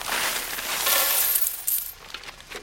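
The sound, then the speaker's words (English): Money emptied from a paper bag onto a table gives a dense, bright jingle of spilling coins. The jingle holds for over a second, then breaks into a few scattered clinks that fade out. “Jason empties a paper bag of money onto the table”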